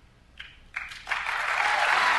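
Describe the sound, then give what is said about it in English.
Audience applause that opens with a few scattered claps, then swells into steady, dense clapping that keeps building to the end. “They're applauding.”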